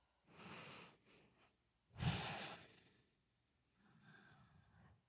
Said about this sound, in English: Another breath.